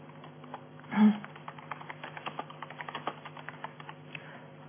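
Typing on a computer keyboard as an email subject is entered: a quick, uneven run of many light key clicks, moderately soft and continuous.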